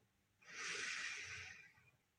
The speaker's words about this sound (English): Let's take a breath in